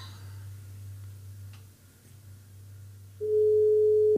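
A telephone busy tone sounds on an unanswered call: a faint hiss on the line, then one steady, mid-pitched beep of about a second that cuts off abruptly at the end.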